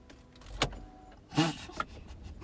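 Mechanical noises from a car: a short knock, then a louder whirring burst, followed by faint rattles, all low in level over a quiet background.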